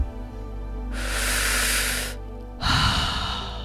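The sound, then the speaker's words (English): A person breathes in and then out through the mouth during a breathwork session: a long, airy, hissing inhale swells and fades, then after a brief pause a rougher, louder exhale follows. “All the breaths in and out through the mouth.”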